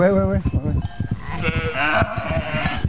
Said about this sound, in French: Voilà, donc là, les brebis, les agnels, tranquillou au milieu de leurs copines.